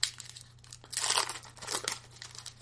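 Tearing and crinkling of a 1993–94 O-Pee-Chee Premier hockey card pack being ripped open, with loud bursts of crackling wrapper in the middle and again shortly after, over a steady low hum.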